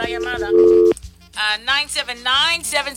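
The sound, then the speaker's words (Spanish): A telephone tone after a dropped call on a live radio phone-in line: one steady beep lasting under half a second, with people talking before and after it. “Oops, se fue la llamada.”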